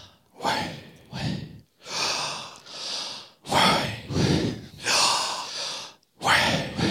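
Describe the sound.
A preacher demonstrates audible breathing during a sermon: many loud, rough in-and-out breaths in a steady rhythm, each a short gust separated by brief pauses, with no spoken words.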